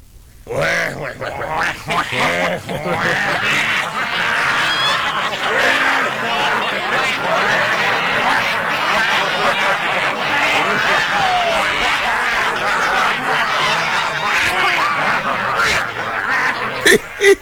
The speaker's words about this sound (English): Uh-oh. Here comes a flock of wah-wahs.